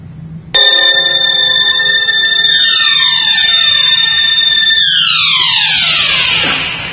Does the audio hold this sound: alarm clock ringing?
yes